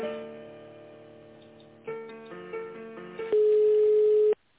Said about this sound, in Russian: Что-то звоночек вернулся. Сейчас еще раз попробую. Угу. Возможно, у них просто линия занята.